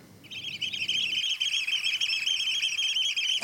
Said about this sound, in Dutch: Vandaag spreken wij over de oystercatcher, oftewel de schoolekster, oftewel de bonte Piet.